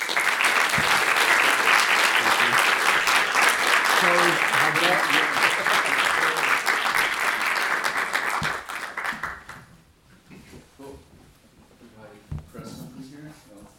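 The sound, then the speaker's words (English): An audience applauds to welcome speakers at a Middle East Center event, dense, loud clapping that holds for about nine seconds before dying away into quieter sounds. “Would you please join me in giving them a very warm Middle East Center welcome?”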